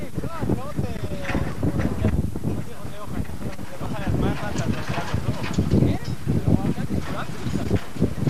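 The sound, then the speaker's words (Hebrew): Wind buffets the microphone outdoors in a steady low rumble that runs through the whole recording, while people talk over it. “איזה רוח. את הכל הוא לא יקלוט, אבל לא נורא.”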